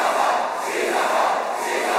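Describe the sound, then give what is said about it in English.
A crowd chanting at a KSI vs Logan Paul event, a loud, continuous roar of many voices with a rough, shouting quality that stays steady and sustained from start to finish. “In response to her being mentioned, the crowd starts a chant.”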